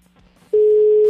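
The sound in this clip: Ringback tone of an outgoing telephone call: after a faint low hum, a single loud, steady, even-pitched tone starts sharply halfway through and holds to the end.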